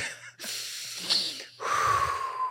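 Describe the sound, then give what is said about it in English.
A big, deep breath taken during a casual conversation: two long, breathy rushes of air, each lasting about a second, separated by a brief pause, fairly loud and with no talk over them. “All right, collectively, we're taking big, deep breath here.”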